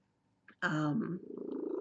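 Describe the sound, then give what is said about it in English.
A cat purring: a brief, louder tonal sound gives way to a steady, rhythmic, low pulsing purr. “If you hear any purring in the background, this is Charlie who's doing it. And you can breathe near Charlie and the cat purrs.”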